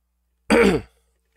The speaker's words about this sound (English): hear him just sort of taking a couple sniffs.